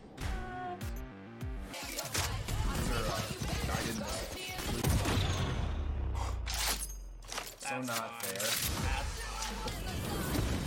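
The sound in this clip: Gunfire and crashing impacts from a weapons trailer for the video game Cyberpunk 2077, with many sharp, rapid bursts and clattering mechanical hits mixed under voices throughout.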